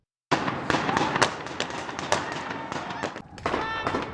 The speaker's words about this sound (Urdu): دارالحکومت میں ایک دوستانہ گیم کے دوران گن فائر، جس سے ایک پرامن جگہ دہشت کی حالت میں بدل گئی